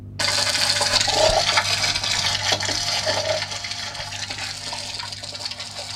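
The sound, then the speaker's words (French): Yellowtail damselfish sounds underwater, a few brief faint pops and clicks scattered over a steady, hissing wash of water noise. “Autre poisson demoiselle qui produit du son, c'est la demoiselle à queue jaune, donc ça ressemble à ça.”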